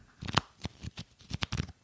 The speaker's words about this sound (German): Ich habe sogar hier liegen, Achtung, das ist der Sound von Wrestling-Sammelkarten.